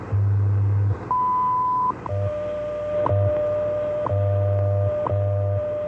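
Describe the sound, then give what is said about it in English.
Radio time signal tones: a steady high beep, then short sharp pips about once a second, layered over a low humming tone that pulses on and off. “At the tone, 15 hours, 49 minutes, coordinated universal time.”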